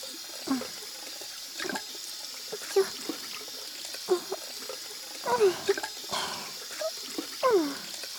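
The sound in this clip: Running tap water rinses soap foam off hands, including from under the nails, a steady hiss of flowing water broken by a few short splashy bursts as the hands move through the stream.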